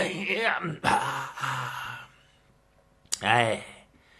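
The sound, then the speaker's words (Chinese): A voice imitates a person yawning and stretching: drawn-out groaning and moaning sounds with breathy intakes, then a short quiet gap, a sharp click and another rising-and-falling groan. “在那打哈欠伸懒腰”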